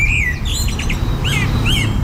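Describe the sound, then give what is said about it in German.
Blackbird song: a few short whistled and warbled phrases with sweeping high notes, clear and fairly loud over a steady low rumble. “Die Amsel, das finde ich ganz nett, ist bei uns die Nummer eins. Und die Amsel ist auch eine Vogelart, die ist quasi überall erlebbar.”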